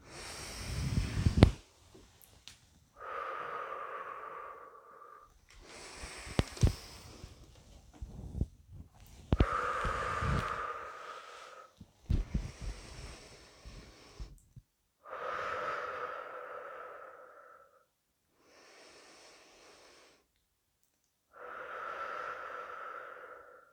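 Slow, deep breaths in and out during a guided breathing exercise: long, airy inhales and exhales alternate in a steady rhythm, some fuller and some faint, with no talking.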